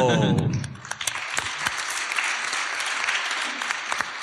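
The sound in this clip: Live audience applause at a festival recording, a brisk crackle of many hands clapping that sets in right after a brief opening sound and continues at a steady, moderate level to the end.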